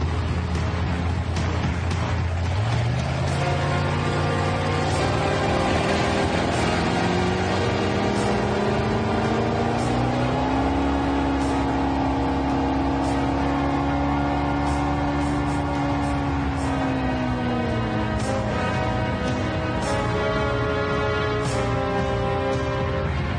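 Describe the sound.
A motorized pirogue's engine runs at full throttle: a loud, continuous droning whine that climbs in pitch in steps early on, holds high, then eases slightly near the end.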